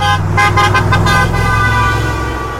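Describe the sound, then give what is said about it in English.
A car horn honks in The Villages, Florida, with a quick series of short beeps followed by a held, steady blast that fades a little at the end. “If you hear a, you know, beep, beep, beep, beep, that's the good beep. If you hear, you know, he just lays on the horn, usually you're getting the middle finger.”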